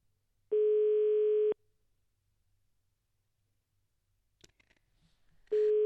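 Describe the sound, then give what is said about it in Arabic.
A telephone ringback tone sounds on a call line to the office of a provincial governor's cabinet director: a steady mid-pitched tone lasts about a second, then silence with faint clicks, and the tone starts again at the end. “الهاتف يرن، تنتمنى انهم يجاوبونا.”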